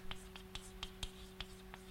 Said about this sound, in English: I'll write it like that.